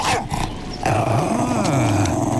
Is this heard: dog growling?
yes